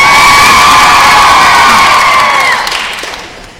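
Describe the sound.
A studio audience cheers, whoops and applauds loudly for the hosts of a show, a dense, sustained roar of voices that fades out toward the end.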